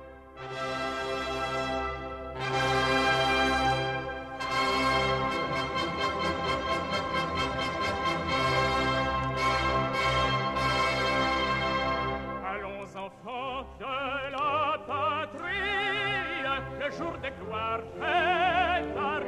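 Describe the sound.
French national anthem played from a recording: loud, full ensemble music that runs continuously, then shifts around the midpoint into a more broken passage of wavering, varied tones.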